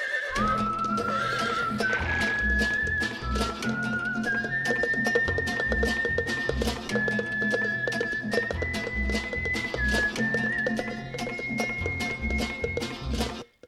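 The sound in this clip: A galloping horse neighs over a steady, driving rhythm of hoofbeats that runs throughout, loud and continuous, with a high sustained whistling tone above.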